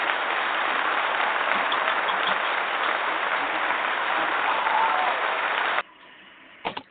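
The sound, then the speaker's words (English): Canned applause plays as a muffled, evenly sustained wash of many hands clapping, then cuts off abruptly near the end, leaving a couple of brief soft thumps. “Wait, I have applause.”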